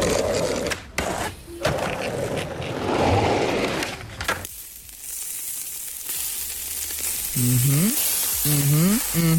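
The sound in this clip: Food sizzles loudly and steadily on a barbecue grill for about four seconds, followed by a quieter rumbling stretch with a few short rising tones near the end.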